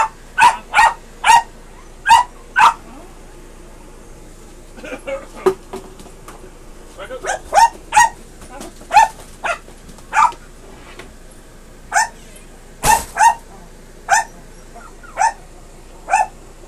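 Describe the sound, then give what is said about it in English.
A dog barks in many sharp, loud bursts, in uneven clusters with short pauses and a few quieter yelps in between, continuing steadily throughout. “Excuse the dog behind me, guys.”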